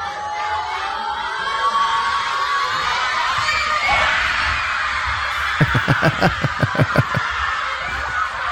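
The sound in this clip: Schoolchildren cheer at kickoff during a school screening of a football match, a steady, high-pitched wash of young voices that ends with a quick run of rhythmic thumps or claps.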